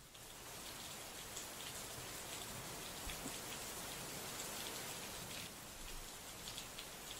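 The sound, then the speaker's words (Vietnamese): Heavy rain pours down over farm fields in a dense, unbroken hiss, steady in level from start to finish with fine crackling drop impacts throughout and no voices. “Vừa lúc cơn mưa cứ như là có ai trút xuống từ trên tầng không vậy.”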